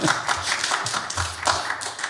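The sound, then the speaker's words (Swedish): A church audience applauding during a Swedish sermon, a dense patter of many hands with a loose pulsing rhythm, moderately loud and with no voices over it. “Vill ni applådera? Gör det.”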